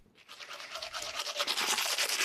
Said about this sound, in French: la brosse à dents, un objet tout simple qui est devenu indispensable à nos vies modernes